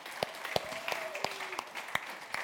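A church audience applauding and cheering during a service, with scattered hand claps over a steady wash of crowd noise. The sound stays fairly faint and even, and no one speaks.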